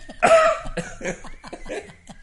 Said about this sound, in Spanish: Sonó como de perro esa tos, qué asco.